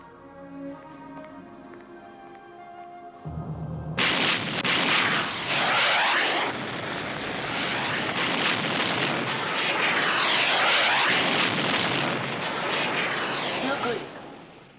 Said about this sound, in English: Missile launch from planet Beta.